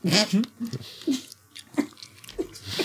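Crunchy chewing and biting of a snack that tastes like stale cereal, in irregular bursts with short gaps and some breathing between them.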